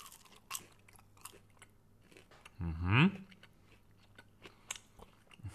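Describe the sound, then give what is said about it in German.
A plain, unsauced chicken nugget is bitten into, giving soft crunchy bites and chewing clicks in a quiet setting. “ich habe jetzt ein Nugget, der ist noch komplett unbehandelt mit gar nichts. Also kein Ketchup, keine Mayo, kein Zitronensaft, kein nichts. Ich beiße mal rein und schau mal, wie sich das anhört.”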